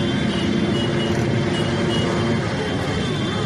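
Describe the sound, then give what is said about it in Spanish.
A motorcycle protest march by aluminium plant workers gives off a steady, dense roar of engines and traffic noise, continuous and unbroken throughout with no clear gaps. “los trabajadores de Alcoa montaban su marcha motera, que sonaba así.”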